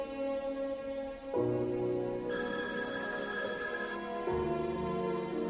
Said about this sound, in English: The signal travels along the telephone wires. He's dialed his own home phone.